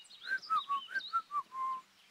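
A person whistles while doing a handstand, a short tune of seven clear notes moving up and down in pitch, the last note held longer, fairly soft and heard alone.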